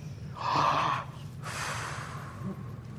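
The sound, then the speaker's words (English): A preacher imitates Christ breathing on the disciples, voicing a breathy, gasp-like rush of air followed by a longer, softer exhale, with no words spoken. “it says he breathed on them and said, receive the Holy Spirit.”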